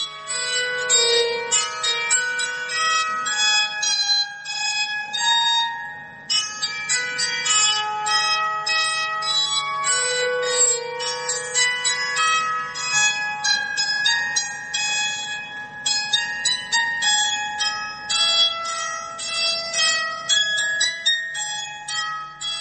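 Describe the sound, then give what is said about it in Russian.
An old English psaltery being played: a long flowing melody of bright, ringing plucked-string notes that sustain and overlap with a bell-like shimmer, steady and fairly loud throughout, without voices. “Вы слушали, как звучит старинный английский инструмент псалтириум.”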